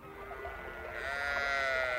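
A dying goat bleats after being struck by a falling rock: a single faint, drawn-out, wavering bleat that swells in the second half and holds to the end.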